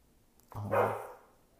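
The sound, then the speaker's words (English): A pet dog lets out one bark, a short, fairly loud woof that swells quickly and then trails off over about a second, with no talk around it. “That was my dog.”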